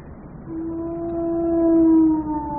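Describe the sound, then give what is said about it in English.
A hound's howl on the moor: one long, sustained, tonal wail that begins after a short pause, swells and holds steady before easing slightly, over a low rumbling background. “They say it's the cry of the hound of the Baskervilles.”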